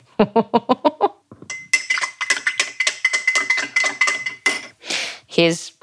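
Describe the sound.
A tablespoon clinks quickly and evenly while mixing, a short run of bright metallic taps, followed by a person talking.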